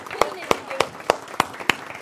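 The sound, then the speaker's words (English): Applause from a church camp audience for the teenagers, heard as seven sharp, evenly spaced claps in a quick steady rhythm, each crisp and bright against a quiet background. “I just want to give the teenagers a quick round of applause for all that they've done tonight.”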